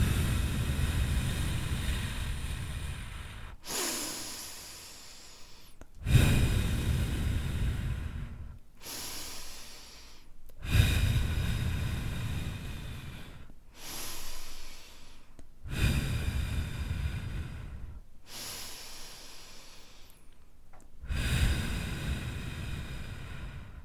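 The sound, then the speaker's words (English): Slow, deep breaths in and out through a straw, a steady series of long airy inhales and exhales each lasting a few seconds, fairly quiet and with no talking. “But take 6 deep breaths with me. Okay, so we're going to breathe in and out through a straw.”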